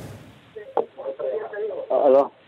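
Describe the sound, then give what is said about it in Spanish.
Television audio plays in the background of a phone call, with voices and programme sound coming through a thin, narrow telephone line in short uneven bursts that end in one louder stretch. “Solo bájale el volumen al televisor para que tengamos un mejor, un mejor audio.”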